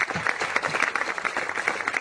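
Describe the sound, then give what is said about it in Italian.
Canned applause plays as a sound effect: dense, even crowd clapping that stays at a steady loudness for the whole short stretch, with no voices. “Ci sono. E allora, fagli un po' di applausi. Dai, di più.”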